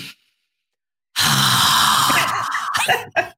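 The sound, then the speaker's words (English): A forceful lion's breath exhale during yoga breathing: one loud, breathy rush of air lasting about a second, followed by a few shorter breathy bursts. “Let's have a cleansing breath.”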